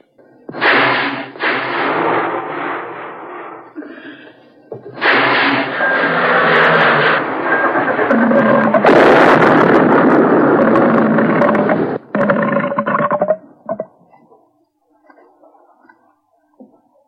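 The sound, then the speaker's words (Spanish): Ship's engine number 1 starting up in rough, rumbling bursts: a first surge, a short pause, then a long, loud sustained roar, one brief final burst, and a faint sputtering tail. “Que preparen motor 1. Puente de mando. Preparen motor 1.”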